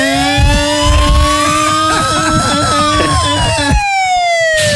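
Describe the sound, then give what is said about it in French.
A scooter engine revs loudly under a wailing siren whose pitch sweeps up and down. The engine's tone rises and falls continuously throughout, and the siren dominates near the end. “Ça avance pas vite un scooter.”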